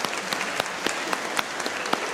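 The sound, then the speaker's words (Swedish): Applause in a church service for the confirmation candidates and their young and adult leaders. Dense, steady clapping runs throughout, with sharper individual claps standing out now and then. “Och de unga ledarna kan vi också ta. Och även de vuxna ledarna, så får vi hela gänget. Så ger vi dem en applåd, ja precis.”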